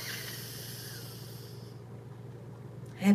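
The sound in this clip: A deep breath drawn in during a guided breathing exercise, a soft airy hiss that runs for over a second and a half, then fades into near silence before a brief louder burst at the very end.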